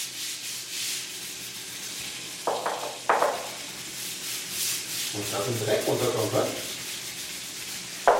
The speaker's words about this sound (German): Den Badboden hat in den vergangenen 20 Jahren augenscheinlich noch niemand so richtig geschrubbt. Schon gar nicht auf Knien, mit Spezialfliesenreiniger und Scheuerbürste.